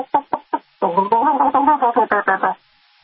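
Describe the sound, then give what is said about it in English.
A person imitates a hen's food call to her chicks: three quick separate clucks, then a loud, rapid, rhythmic run of throaty tuk-tuk calls that stops abruptly. “That's what chickens do when they find a nice, fat, tasty grub and they want to share it with their fellow chickens, especially their babies.”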